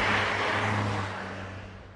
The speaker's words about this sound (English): In the town itself, the occasional car speeds past on streets that are almost completely deserted.